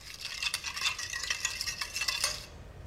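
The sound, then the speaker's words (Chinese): Stirring of a seasoning mixture in a bowl made with salt, MSG, chicken bouillon, pepper, sugar, light soy sauce, oyster sauce and potato starch: many quick scraping strokes in a steady, busy rhythm, moderately loud and alone, stopping just before the end. “最后加入土豆生粉，搅拌均匀即可。”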